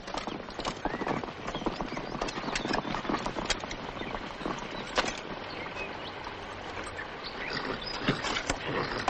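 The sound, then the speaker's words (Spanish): Horses' hooves clip-clop as a group of riders moves at a walk between trees, many overlapping hoof thuds in an uneven, steady rhythm, fairly quiet throughout. “Al poco avanzan entre árboles. ¡Alto! Luis baja del caballo.”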